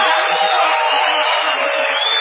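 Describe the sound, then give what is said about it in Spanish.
A crowd cheers and roars in an ovation at a Spanish-language live show, a dense, thin-sounding wall of voices and noise that holds steady the whole time. “En primer lugar, brindaremos una ovación desaforada a Patricio Barto.”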